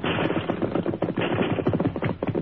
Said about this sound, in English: Rifle fire